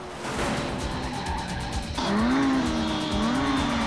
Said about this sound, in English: They turn off at a crossroads, and Santiago performs a high-speed skid in an attempt to keep up.